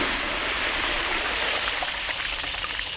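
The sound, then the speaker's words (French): Palm oil being thrown into water for soap making gives a steady, rushing, watery hiss that holds at an even level from start to end, with no voices. “Ça, c'est l'huile de palme jetée dans l'eau pour la fabrication de savon.”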